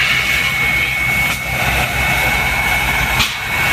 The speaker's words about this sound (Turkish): yangın söndürme helikopteri ve söndürme uçağı da devreye girdi.